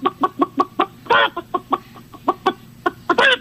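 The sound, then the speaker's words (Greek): Chicken clucking in a quick, even run of many short, sharp clucks, broken by a longer, harsher squawk near the middle and another at the very end, with no talk. “Βρε καημένε, ένα διαφορετικό κακάρισμα δεν μπορούσε να κάνεις ότι έχει πολύ κόσμο.”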